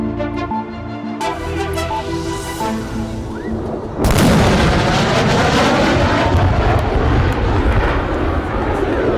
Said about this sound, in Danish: Det her er lyden af et F-16-fly, der bryder lydmuren.